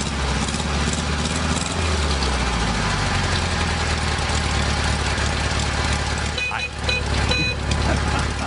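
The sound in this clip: A car engine idles with a steady low, throbbing rumble that runs unbroken. Near the end a brief dip and a few thin whining tones rise above the drone.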